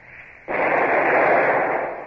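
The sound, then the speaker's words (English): A ship's cannon, the number two gun, fires a single warning shot across another ship's bows: one sudden, loud blast after a brief quiet, then a sustained heavy roar that fades only slightly. “Well, fire a shot across her bows. Number two gun. A single shot across her bows. Fire!”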